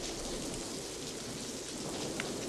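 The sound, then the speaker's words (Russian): Rain falls steadily, with raindrops running down a window pane. It makes a soft, continuous hiss and patter at an even, low level throughout, with no voices. “По стеклу стекают капли дождя.”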